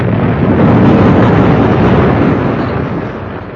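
A loud, sustained boom of a gun fired at a terrapin 100 yards away in a shooting contest. It is a deep, rumbling roar that holds steady for a few seconds and fades slightly at the end.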